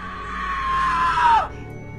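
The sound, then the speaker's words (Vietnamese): A person screams in agony: one long, loud, sustained cry that holds a steady high pitch, then drops sharply in pitch as it breaks off after about one and a half seconds. “Thế rồi cho đến khi có tiếng người hét thảm thiết vang lên.”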